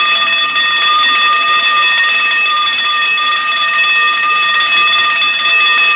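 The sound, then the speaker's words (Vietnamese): A lights-out bell rings at 11 pm in a school dormitory, a loud, steady electric ring with a bright, buzzing metallic tone that holds unbroken from start to finish, with no voices. “cô vừa đến trường thì chuông báo tắt đèn lúc 11 giờ vang lên.”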